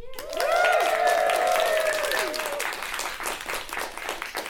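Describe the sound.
Audience applause welcomes the panellists at an event at Chester's theatre, library and arts centre. The clapping starts sharply, stays dense and steady throughout, and fades slightly toward the end. A tonal sweep rings briefly near the start.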